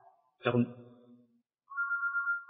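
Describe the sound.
A mobile phone ringtone goes off during a lecture on Islamic jurisprudence. After a brief voice, a steady, bright electronic two-tone ring sounds and holds without a break.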